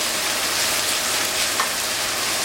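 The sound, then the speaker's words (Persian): Meat and onions sauté together in a pan, giving off a loud, steady crackling sizzle that stays even from start to finish, with no voices. “دوستان همراه با پیاز می تفت می دهیم رنگ روش عوض بشه. ما همزمان رو بیارم یک تفتش میدیم،”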